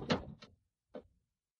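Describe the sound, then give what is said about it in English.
A door is closed and locked: a fuller shutting knock comes first, and after a short pause a second, briefer click-like knock follows. Both sound alone and fairly quiet, with no voices. “Lock the door.”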